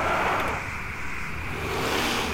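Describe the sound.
A four-wheel-drive vehicle accelerates with a loud, continuous engine roar that holds steady and dense throughout.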